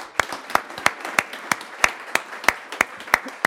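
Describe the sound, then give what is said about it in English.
Applause from a live audience at a press club gathering, heard as sparse, evenly spaced hand claps in a steady rhythm rather than a dense ovation, with quiet gaps between them. “let's have a gratuitous round of applause to that so we can hear”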